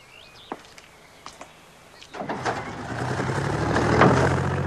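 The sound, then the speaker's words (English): A car engine starts and the car drives off: a few faint clicks come first, then a low rumble kicks in and builds steadily louder and fuller as it pulls away. “As the car drives off”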